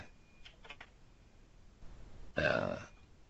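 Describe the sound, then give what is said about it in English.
Keys click on a computer keyboard while someone types in a code editor: a few soft, quick taps close together, then a voice speaks briefly. “start typing here, you'll see I get IntelliSense pop up.”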